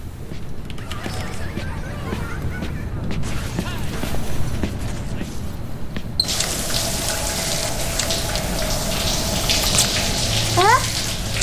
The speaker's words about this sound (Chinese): 那我洗澡去了。